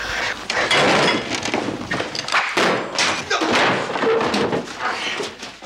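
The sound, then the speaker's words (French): A table tipped over and a rug yanked away in a tense film scene where a character shields himself from a blade and razor, heard as loud, dense thumps and bangs throughout. “À la suite de ce dialogue, comme on peut l'entendre vers la fin de la scène, Chet tire le tapis et il bascule la table pour se protéger de la lame et du rasoir.”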